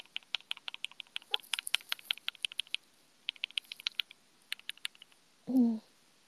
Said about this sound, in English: now I'm just playing with my keyboard